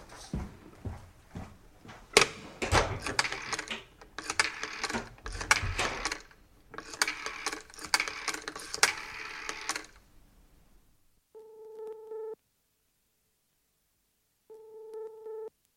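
A telephone number is dialed with a long run of busy mechanical clicking and rattling, followed by the line ringing: two steady tone bursts separated by a pause.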